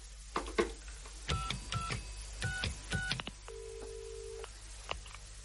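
A telephone being dialed: a quick run of short keypad tones in uneven bursts, then one longer steady tone and a final brief tone.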